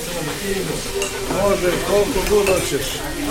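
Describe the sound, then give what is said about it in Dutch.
A large pan of rice bubbles and sizzles on a gas burner set on the floor of a restaurant kitchen, a continuous crackling simmer that grows slightly louder midway. “Op een gaspit op de grond staat een grote pan te pruttelen. Rijst zit erin, heel veel rijst.”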